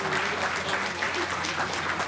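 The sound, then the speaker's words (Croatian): Hearty applause at an iftar dinner and evening program honours a young man's achievements, a dense, even patter of many hands clapping throughout. “sigurno da niko nije mogao da se ne pridruži gromkom aplauzu odavanju poštovanja za dosadašnje uspjehe ovog mladog čovjeka.”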